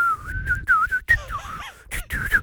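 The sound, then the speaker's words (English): A person whistles a wavering, tuneful melody in several short phrases broken by brief pauses, with the pitch sliding and trilling more freely toward the end. “go on, whistle now”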